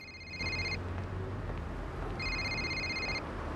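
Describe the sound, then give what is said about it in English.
A mobile phone rings in two bursts of a high electronic ringtone, a short one and then a longer one, over a steady low rumble. “As the security guard escorts him off the premises, Buchan's phone rings.”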